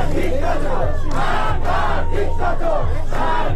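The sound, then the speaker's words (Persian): Protesters in Iran chant slogans against the Islamic Republic and its supreme leader at a memorial for young people killed by security forces. A loud crowd calls out in rhythmic, repeated bursts over a steady low drone. “علیه جمهوری اسلامی و آیت الله علی خامنه ای رهبر جمهوری اسلامی شعار سر دادند.”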